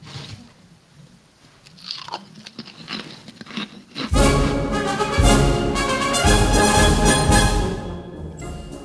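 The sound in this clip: Potato chips crunch loudly as people bite and chew, starting as sparse, quieter crunches and patter, then becoming dense, continuous and loud from about halfway, with no talk.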